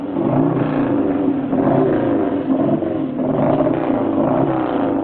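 A stunt motorcycle engine rumbles as the rider turns away from a takeoff ramp at a jump event. It is a continuous, muffled drone with gentle swells in loudness and no voices.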